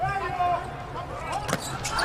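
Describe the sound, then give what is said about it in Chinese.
Volleyball struck on a serve by the number 12 player during a match: one sharp hit of hand on ball beneath a commentator's voice and crowd noise. “发球的是12号的张哲佳。”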